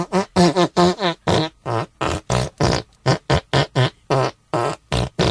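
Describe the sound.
A rapid series of loud, pitched fart noises in a rhythmic, tune-like pattern. The many short bursts have bubbly, buzzing tones and brief gaps between them.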